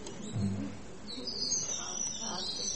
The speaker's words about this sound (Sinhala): හොඳට අහගෙන ඉන්න. ඇටි කුරුල්ලෙක්.